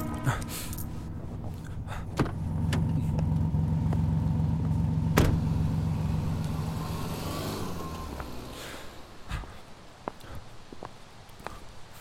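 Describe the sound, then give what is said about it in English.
A taxi idles with a low engine rumble that swells and then slowly fades as the passenger pays and steps out. A few sharp knocks break through the hum. “Now get out of this taxi. The man is starting to look at you strangely. Pay him and step out.”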